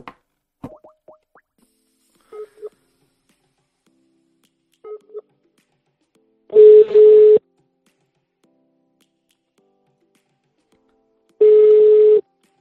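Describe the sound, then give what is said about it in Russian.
Telephone dialing: a few short keypad tones and clicks come in scattered quick bursts, followed by two longer steady tones separated by a long silent gap. “Набираю.”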